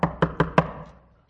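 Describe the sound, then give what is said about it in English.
Knocking on a latched bedroom door at night: four firm, evenly spaced knocks, each with a hollow wooden thud, followed by a brief fading ring. “there's a knocking at the door.”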